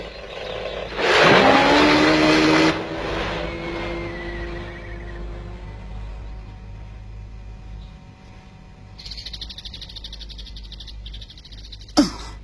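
Small motor of a remote-controlled fishing boat revving up in a loud burst, then settling into a quieter, steady whirring hum that slowly drops in pitch, with a brief high buzz and a sharp click near the end.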